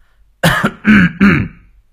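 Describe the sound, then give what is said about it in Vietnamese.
A man clears his throat three times in quick succession, short raspy bursts with brief gaps, alone in quiet. “Xong ông hắng giọng lấy le mấy cái, rồi đóng sầm cửa buồng.”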